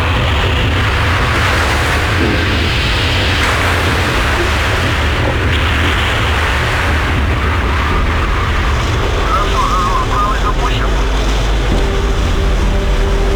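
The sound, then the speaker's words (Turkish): A deep, continuous rumble and rushing roar from the nuclear icebreaker Yamal, the most powerful icebreaker, as it grinds through thick, heavy Arctic Ocean ice; the noise stays loud and steady without a break. “Yamal, dünyanın en güçlü buz kıran gemisi. Teknolojik donanımıyla göz dolduran bu nükleer gemi, en kalın ve ağır buzları kırması için mühendisler tarafından geliştirildi.”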